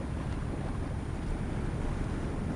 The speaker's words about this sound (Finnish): Vene ui ja keikahtelee itsepäisesti tässä aallokossa. Rupeaa keinumaan.